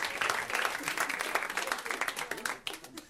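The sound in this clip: Audience applause at a comedy show: a fairly soft, dense wash of many hands clapping that holds steady for about three seconds, thins briefly near the end, then picks up again.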